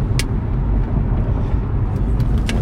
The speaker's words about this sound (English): It's a car trying to come out here in the middle of everything. An oversized load. He just want to come out with 2 miles per hour.